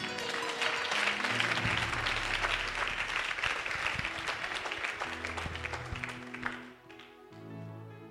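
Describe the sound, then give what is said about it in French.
An audience at a church sermon applauds and cheers, a dense, loud wash of clapping with raised voices and sustained musical tones beneath, continuing for several seconds before tapering off at the end. “Si tu as compris, acclame le Seigneur.”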